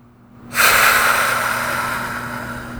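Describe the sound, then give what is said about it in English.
A single deep breath taken during a guided tapping exercise: a loud, breathy rush of air that starts abruptly after a moment of near silence, then slowly fades as it continues, with no voices. “Deep breath.”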